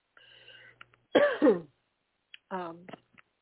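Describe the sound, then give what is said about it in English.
Harsh throat clearing and coughing from someone choking a little on something, with a double-pulsed rasping burst followed after a pause by a shorter, more voiced one. “I'm reading, and also a little bit choking on something.”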